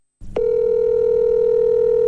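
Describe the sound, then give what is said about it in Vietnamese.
A telephone tone sounds while a call is being placed: a short rustle, then one steady, unbroken mid-pitched tone that holds loudly to the end. “Thôi, anh để em gọi cho anh Nam.”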